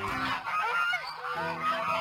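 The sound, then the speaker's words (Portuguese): Geese honking, a noisy flock of old geese with imposing plumage: overlapping nasal calls fill the whole two seconds without a break, loud and steady with no voices. “Dirigiam-se para lá velhos gansos muito bem engravatados, de plumagem imponente e todos muito barulhentos, todos muito senhores de si.”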